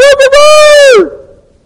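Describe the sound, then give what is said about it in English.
A man's voice imitates a rooster crowing, loud and tonal, with a choppy start that stretches into a long held note and drops in pitch as it fades out. “And the cock crows.”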